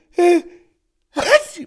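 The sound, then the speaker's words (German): Two sneezes brought on by glitter dust, each a short voiced burst with a breathy tail, separated by a clear pause of silence. “Und natürlich musste ich davon niesen.”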